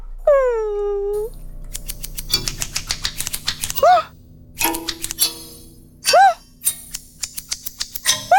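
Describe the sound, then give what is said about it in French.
Scissors snip repeatedly as a pet's fur is cut, giving sharp clicks in irregular bursts, while a cat meows a few times between the snips. “N'aie pas peur, mon doudou. Ça ne fait pas mal de se faire couper les poils.”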